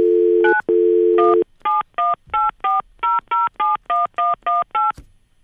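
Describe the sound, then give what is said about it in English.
Telephone keypad dialing: a steady dial tone, briefly interrupted, then eleven short, evenly spaced touch-tone beeps of varying pitch, ending in a faint click. “I'm trying it one more time. I think I'm bad at dialing.”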